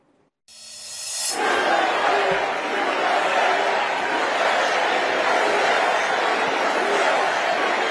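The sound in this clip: A crowd at the Republican convention in Texas reacts to J.D. Vance's retort to a protester waving a Mexican flag. Crowd noise swells quickly from near-silence into a loud, sustained roar of many voices.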